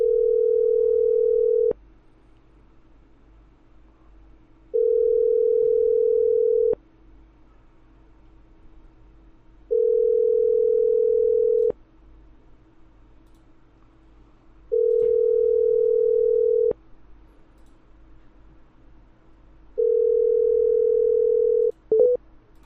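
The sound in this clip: A telephone ringback tone plays while a call is placed: five steady, even beeps, each about two seconds long, separated by roughly three-second gaps over a faint background hiss, with a short click at the very end.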